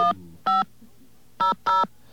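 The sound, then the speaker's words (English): Touch-tone telephone keys dialing a 500 number, four loud, clean beeps with uneven gaps between them and silence in between. “I'm going to try calling a 500 number, which I've never really succeeded in doing before. In fact, I'm going to try dialing my own 500 number.”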